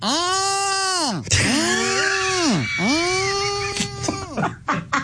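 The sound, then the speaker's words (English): A human voice imitates turtles mating with long, wavering, nasal groans that arch up and fall back in pitch, a few drawn-out calls in a row followed by shorter broken sounds. “So I got to see and hear with my own eyes what it is when turtles mate. And it sounds a little like this.”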